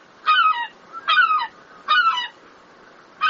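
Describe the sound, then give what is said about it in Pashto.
Seagulls calling over the streets of Rome: three loud, nasal, harmonic cries, each slightly falling in pitch and evenly spaced, with a fourth starting at the very end. “د سیګل خواړه کم شول. پخوا به دې سمندري مرغه د روم په کوڅو او واټونو کې له انسانانو پاتې شوي خواړه پسې خوړل.”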